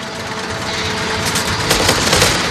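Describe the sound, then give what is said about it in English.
Gunfire as two people open fire while backing toward a rough stone wall, with a drilling machine nearby. A loud, dense, steady barrage runs throughout, with a few sharper cracks standing out in the second half. “Quaid and Melina open fire and back up toward the stone wall.”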